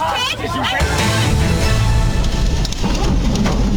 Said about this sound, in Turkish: Wisconsin'de kuvvetli rüzgar ve fırtına elektrik direklerini devirdi.